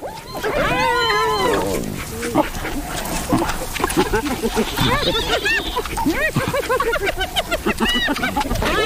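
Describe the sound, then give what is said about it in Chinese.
African wild dogs give many high, arching twitters and yelps in rapid, overlapping bursts that continue throughout, shortly after spotted hyenas took their captured antelope. “非洲野犬并不打算放弃。”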